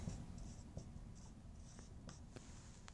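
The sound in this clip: Handwriting while working out a mechanics equation gives soft, continuous scratching strokes with a few short ticks, faint over a steady background hiss.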